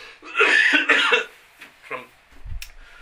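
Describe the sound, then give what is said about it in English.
A preacher with a sore throat after COVID coughs: a few harsh, raspy coughs bunched together early, followed by a couple of weaker, shorter ones, with no talk. “I take a fit of coughing every now and then”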